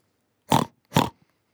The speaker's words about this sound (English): Pig.